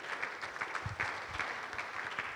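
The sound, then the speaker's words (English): Audience applause closes a conference talk: steady, dense clapping that stays fairly faint throughout, with no voices over it. “I think a big round of applause.”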